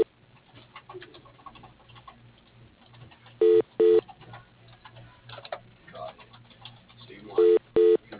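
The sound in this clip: Telephone keypad tones dialed into a metal products company's automated phone menu: four short, loud, steady beeps in two quick pairs, over faint line noise and muffled speech.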